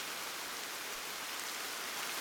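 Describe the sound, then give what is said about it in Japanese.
Rain falls steadily and soaks into the soil, making a dense, even hiss that holds constant throughout with no breaks. “雨が降りました。雨の雫は土の中まで染み込んでいき、花の根っこを揺すぶりました。”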